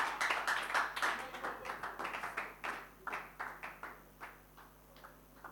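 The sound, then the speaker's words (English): An audience claps as people come forward to sit down. Many separate, rhythmic claps beat at a steady pace, faint overall and growing gradually softer and sparser toward the end. “Clap for them as they are coming to sit down.”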